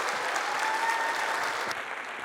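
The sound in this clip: Audience applause welcoming a speaker to the stage at a church service: steady, dense clapping that holds at an even level throughout.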